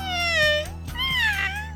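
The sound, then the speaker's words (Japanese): A cat meowing twice, each call a drawn-out, whining cry that bends in pitch, over a steady low hum. “平気みたいだよ。猫の心配なんていいから早く帰ろう。”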